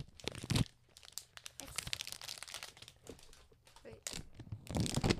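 Crinkling packaging as a new Apple phone box is opened, with a few irregular, faint bursts of crackly rustling.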